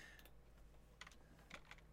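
Typing on a computer keyboard: a few very faint, crisp keystrokes in small clusters, separated by quiet gaps, with no talking.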